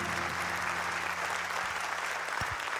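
Applause from an audience, an even, continuous patter of many hands clapping, fairly soft and unchanging throughout.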